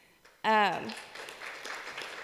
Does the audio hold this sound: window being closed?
no